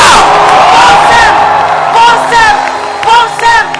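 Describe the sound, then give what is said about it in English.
A church audience claps and shouts praise to Jesus during a service. Loud, dense cheering and whooping voices mix with claps, swelling and easing in waves throughout. “Clap your hands and lift up your voice and give Jesus a”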